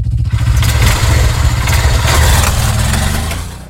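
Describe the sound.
A new motorbike's engine running: a loud, steady, low throbbing that holds almost unchanged throughout and eases slightly toward the end.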